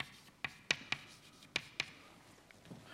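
Drawing on a board during a physics lecture makes several sharp taps and short scrapes in an uneven rhythm. The strokes are fairly faint over a quiet background hiss, and no one speaks.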